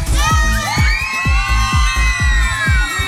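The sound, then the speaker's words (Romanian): A crowd at a live radio event in Baia Mare, Romania, cheers and applauds. Loud, high voices shout and whoop over many steady, evenly spaced low thumps of rhythmic clapping. “Aș vrea să aplaudați toată echipa Radio Zoo și să țipuriți!”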